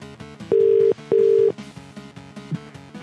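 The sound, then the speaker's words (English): British telephone ringtone on an incoming call from BT: two long, loud ring bursts in a double pattern, then the ringing stops and only quieter background sound remains. “It's not too unreasonably late for BT to be calling. Nice British ringtone there.”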